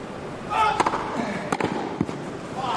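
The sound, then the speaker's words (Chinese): Novak Djokovic's tennis serve during a match: a few sharp, percussive ball impacts stand out against steady background noise, with a voice talking over them. “好发球啊！现在德约在二区内角的落点也是要的非常准的。”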